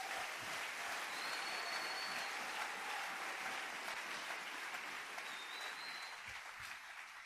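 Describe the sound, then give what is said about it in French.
Applause from a church audience acclaiming the Lord, a steady, even wash of many hands clapping that carries on for several seconds and eases slightly toward the end. “Dis à ton voisin, gère bien ton temps. Acclamons le Seigneur.”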